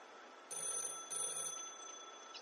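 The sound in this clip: A telephone bell rings in two short bursts of bright, high, metallic trilling, then a fainter tone lingers over quiet hiss.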